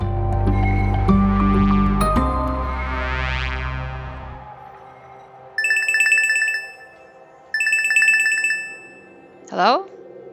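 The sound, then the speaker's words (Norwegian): Outgoing call ringing on an encrypted messaging app, with two pulsed, trilling high-pitched ring bursts separated by a short pause. “Han har gått i dekning, og han kan ikke ta imot vanlige telefoner, så jeg ringer ham på en kryptert app.”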